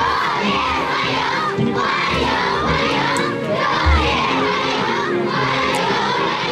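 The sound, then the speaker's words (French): Many children's voices sing together at a state welcome ceremony in China held for the visiting Russian president. The singing is loud and dense and holds steady through the whole passage, with no clear breaks. “Ça, c'est les enfants qui chantent. J'ai pas trouvé la traduction.”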